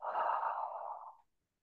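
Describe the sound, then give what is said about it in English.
One steady breath during a breathwork exercise, airy and moderately soft, lasting just over a second before fading into silence. “Again, it's that deep inhale through the nose. Get to the top of that inhale and another quick inhale. Long exhale.”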